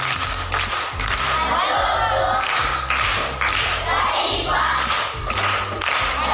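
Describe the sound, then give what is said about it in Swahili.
Rhythmic group clapping at Chiringei primary school after a correct riddle answer, a steady repeating pattern of claps throughout. “Amepata. Makofi kwa mjomba.”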